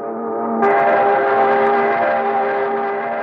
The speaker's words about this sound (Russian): Тоскливо-истошный гудок за стенами фабричной управы вернул главного разведчика компании в реальный мир.